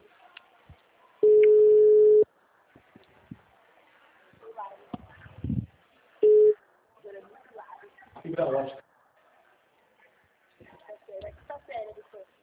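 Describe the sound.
Telephone line tones during a call: a steady low tone of about a second, then a much shorter burst, with faint voices and handling noises in between.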